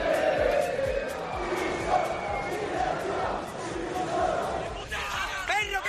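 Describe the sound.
A football crowd at Mestalla stadium mocks its own team Valencia during a 0-5 home defeat, a dense, continuous roar of chanting and ironic cheering.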